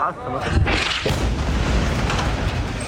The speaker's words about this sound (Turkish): Şiddetli bir patlama yaşandı. Gecenin karanlığını alevler aydınlattı.